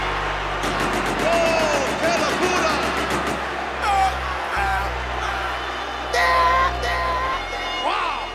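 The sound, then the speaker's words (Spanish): Wrestling arena crowd cheering, whooping and shouting while a wrestler endures a submission hold, loud sustained roar with rising whoops and yells surging at intervals over a steady low rumble. “¡Algarabía! ¡Qué emoción! ¡Qué suspenso! ¡Escuchen a ese público!”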